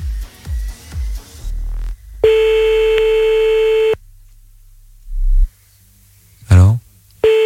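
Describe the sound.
Telephone ring tone while calling back a listener late at night: low thumps and clicks, then one long steady mid-pitched tone of about one and a half seconds, followed by further clicks and line noise.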